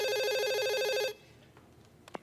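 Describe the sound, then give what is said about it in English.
A house telephone rings with a fast electronic warbling trill for about a second, then stops abruptly. Quiet follows with a few faint clicks. “At 12 noon, a realtor working on a deal for Ted phones the house.”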